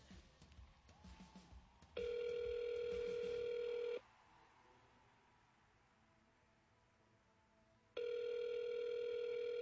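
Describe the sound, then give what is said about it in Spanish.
Telephone ringback tone while a call to a radio station waits to be answered: two long, steady, loud tone bursts about four seconds apart, the second cut off at the end, with quiet line hiss between them. “Nunca le va a sonar ocupado. Esperando a que nos contesten en Radio Lluvia.”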